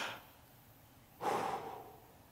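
A single deep breath taken as a breathing demonstration, a soft airy rush of air that swells and then tails off, alone after a faint noisy moment at the start.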